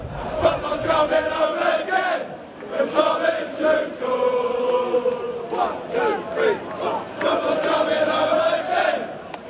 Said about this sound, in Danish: De engelske fans, de drømmer om pokalen, så fodbold endelig kan bringes hjem, som de synger her.